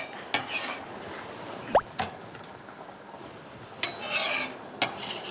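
Tomatoes being stir-fried in a pan: a few sharp utensil knocks and soft rasping scrapes against the pan, quiet and irregular, with no voices.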